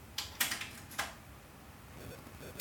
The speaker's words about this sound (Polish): Ja teraz spróbuję przewinąć, naciskam przewijanie, zrobiłem stop, teraz zrobię start.